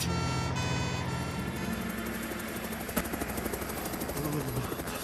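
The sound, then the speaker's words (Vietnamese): A helicopter's rotor chops with a steady, loud, rhythmic beat over a dense, droning engine roar that holds throughout. “tiếng đó là tiếng trực thăng của Tom.”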